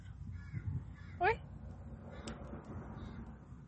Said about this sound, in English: Oh, now bird on your side. Yeah, bird, eh?